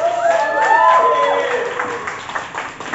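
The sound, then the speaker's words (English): An audience applauds a poet at a poetry slam: a steady patter of clapping with bright, sweeping whoops over the top early on, thinning out toward the end. “Keep the applause going.”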